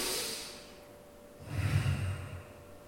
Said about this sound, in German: Ich atme ein und atme aus und sage dabei Jesus und Christus.